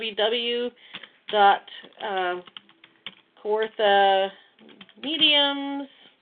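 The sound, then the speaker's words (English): Keys clicking on a keyboard as a web address is typed, light irregular taps scattered beneath steady talk. “So I just typed that in for you um, to go ahead and uh, connect to them with.”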